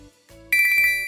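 A phone message notification tone sounds for an incoming reply: a bright, high chime made of a quick run of pulses starts partway through and rings on, loud, after faint low sounds.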